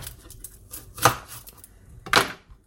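Two sharp knife chops cut through a red onion being prepared for baking, spaced about a second apart over a faint, steady background.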